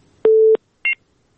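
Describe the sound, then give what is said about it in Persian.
Telephone disconnection tones as a call drops: a steady low beep lasting about a third of a second, a short pause, then a briefer, higher-pitched beep, both alone against silence. “خب بازم تماس قطع شد.”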